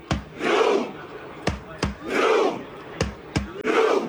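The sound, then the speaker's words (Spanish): Crowd dressed in red in Times Square performing the Viking war chant: sharp unison claps alternate with deep, booming group shouts in a slow, regular rhythm, loud and with no talk over it. “El U quiere decir el remo, el grito vikingo.”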